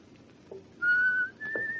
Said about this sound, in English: Will you be so kind as to stop whistling and tapping your foot? Oh, you're so funny. Well, go ahead and whistle.